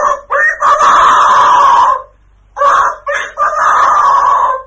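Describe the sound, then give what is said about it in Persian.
A rooster crows twice in a children's farm-animal tale. The two long, loud, harmonic calls are separated by a short silence. “آقا خروسه هم گردنشو دراز کرد و گفت:”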